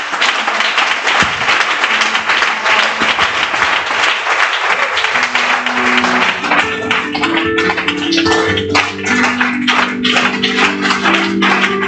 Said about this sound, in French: Est-ce qu'on peut acclamer les témoignages?